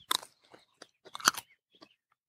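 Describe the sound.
Crisp crunching of raw seaweed being chewed, the loose outermost tips of the fronds, with several sharp bite-and-chew bursts in an uneven rhythm. The loudest cluster falls midway, and fainter chews follow. No one talks.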